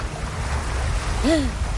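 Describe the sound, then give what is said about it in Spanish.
A boat passes on the water with a steady low rumble and a wash of wind and wave noise. The sound stays even and continuous for the whole moment. “Un barco pasa tras ellos que se quedan sorprendidos.”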